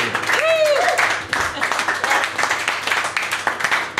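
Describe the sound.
Audience applause, opening with a voice and then settling into a steady stretch of many hands clapping that runs to the end.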